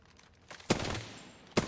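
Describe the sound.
A machine gun sound effect: two sharp bursts of gunfire, each followed by a noisy tail, fairly quiet overall.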